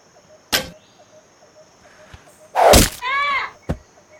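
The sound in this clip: An arrow shot during target practice: a sharp crack, then a louder rushing burst and a ringing tail, closing with another short, hard hit.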